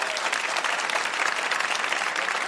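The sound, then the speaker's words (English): An audience at a live game show claps steadily, a dense, even wash of applause that holds at the same level throughout. “Nicely done, people. Nicely done. Give yourselves a hand.”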